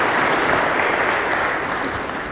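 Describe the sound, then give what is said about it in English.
Applause from the audience at a church mass: a dense, steady patter of many clapping hands that stays even throughout and eases off slightly at the end, with no voices standing out. “I got applause at all three masses so far.”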